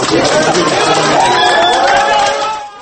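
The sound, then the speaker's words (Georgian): A crowd of supporters and relatives shouting outside a courthouse in Minsk, a dense, loud mass of overlapping voices and cheers that fades slightly at the very end. “აი ასეთი აქტოვანებული შეძახილებით შეხვდნენ სასამართლო შენობიდან გამოსულ ირინა ხალიბს ნოვაე გაზეტას კორესპონდენტს გულშემატკივრები და ახლობლები.”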